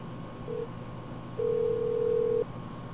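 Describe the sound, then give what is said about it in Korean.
Telephone line tones as a call is connected: a short, quiet beep followed after a pause by a longer steady tone of about one second, over a low background hiss. “자, 연결하겠습니다.”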